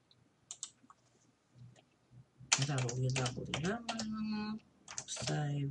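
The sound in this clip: Faint keyboard typing: a few soft, scattered clicks as someone types on a computer keyboard, then a voice starts talking and the clicks fade under the speech.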